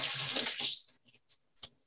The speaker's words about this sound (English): So I'm going to wash my hands real quick, and then we're going to put these in the oven.